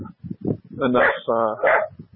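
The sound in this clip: A dog whimpers and gives whiny, high-pitched yips and short barks in a run of bursts, and a person talks alongside it.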